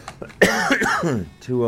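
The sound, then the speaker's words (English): A cough right into a microphone: one loud, rough burst that flows into a strained, voiced rasp, with a brief pause and a shorter throaty sound at the end. “I guess I probably shouldn't have coughed right into the microphone like that.”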